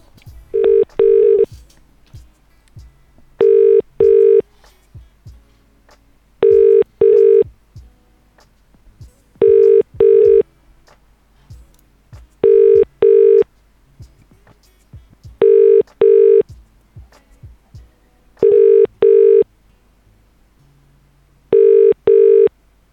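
A telephone call rings out as eight evenly spaced double-burst ring tones with silence between them. Faint clicks sit under the gaps.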